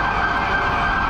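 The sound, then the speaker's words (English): Police sirens of a motorcade arriving in New York City sound a loud, steady wail held throughout the brief moment, with a dense rumble of traffic beneath and no talk. “That's the sound of former President Trump arriving in New York City”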